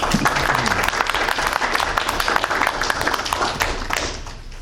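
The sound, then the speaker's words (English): Steady applause from a public meeting audience, dense clapping holding at an even level for several seconds before easing slightly at the end. “So if we can just give a quick round of applause for Kelly and QNR.”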